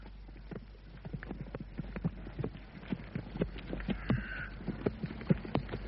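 Horses' hooves clip-clop at a canter, a steady, fairly quiet rhythm of many soft thuds continuing from start to finish.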